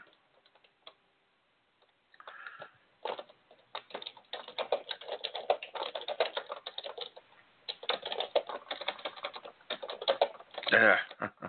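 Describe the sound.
Keystrokes clatter on a computer keyboard, fairly quiet, starting after a near-silent moment and continuing in uneven bursts of rapid clicks with brief pauses.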